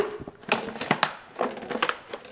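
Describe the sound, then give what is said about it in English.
Crinkling crunches of a plastic gallon water bottle being stepped on and flattened for recycling. A few sharp crackling bursts come at irregular intervals, fairly faint. “A gallon of water bottle. Let me step on that.”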